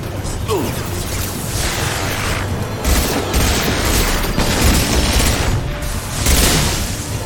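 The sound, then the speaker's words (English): Sniper rifle shots in a video game: a few heavy booming bursts stand out over a dense, continuous wash of game noise, with no clean silence between them. “Okay, sniper rifle time. Oh boy. He kind of shot Morden in half. Each of these bullets really seems to help.”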